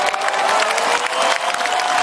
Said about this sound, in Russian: Чего ты хлопаешь, у тебя на столе ни хрена не стоит?